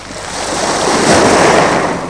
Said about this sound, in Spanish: ¿Por qué me preguntan las olas lo mismo que yo les pregunto? ¿Y por qué golpean la roca con tanto entusiasmo perdido?